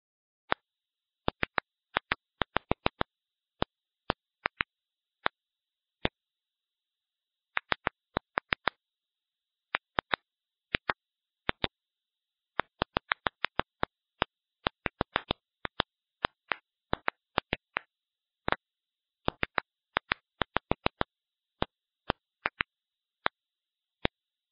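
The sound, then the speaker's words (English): Clicks from stressed plants, ultrasonic emissions shifted down into the audible range: many sharp, dry ticks scattered irregularly over silence, some isolated and some in quick clusters, with no voices. “they found that the stressed plants emitted more sounds than the unstressed plants. And I'm going to attempt to play for you some of the sound that they recorded.”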